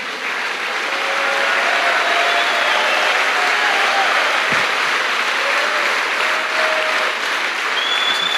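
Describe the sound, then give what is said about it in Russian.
Sustained applause from a church audience at the close of a sermon, thick and continuous clapping that stays loud and even from start to finish. “Let's give the Lord a big Подадим Господу аплодисменты.”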